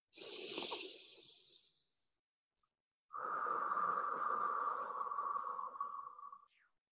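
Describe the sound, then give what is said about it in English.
Deep breaths drawn in through the nose during a guided breathing exercise: two long, airy breath sounds, the second longer and carrying a steady whistling nasal tone, with no talk. “Deep breath in. And the next breath, let's expand even more. Deep breath in.”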